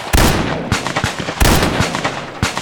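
Gunshots from a rifle and a derringer in a Western gunfight: a few loud, sharp cracks that burst out one after another, each with a short decaying tail.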